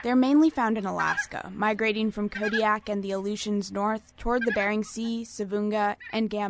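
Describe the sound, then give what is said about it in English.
Emperor geese, birds of Alaska and the Bering Sea, give repeated cackling honks beneath a voice that talks over them continuously. “That's the sound of an emperor goose.”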